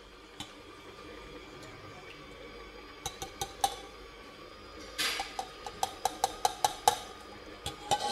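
An electric mixer beats eggs, added one at a time, into burnt cheesecake batter. A steady motor hum runs under many sharp clacks against the bowl, which grow more frequent in the second half.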